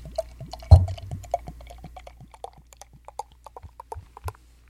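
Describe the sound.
An alcoholic drink poured into a glass: a louder splash near the start, then many small irregular glugs and drips that gradually thin out and quieten.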